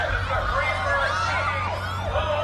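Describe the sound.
A police siren wails as police arrive, with repeated rising and falling sweeps over a steady low rumble of traffic, continuous and fairly loud throughout.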